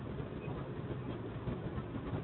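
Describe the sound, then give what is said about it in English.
A train rumbles past a car on the road, a steady, low, continuous roar that stays quiet and even throughout, with no voices. “I've got the train. Of course, I'm meeting the train. Just passed him, but there you go.”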